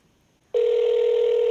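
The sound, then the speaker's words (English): A telephone call tone comes over speakerphone during an outgoing call. After a moment of near silence a single steady tone starts abruptly and holds at one pitch to the end. “Don't you kind of get the butterflies when phones ring?”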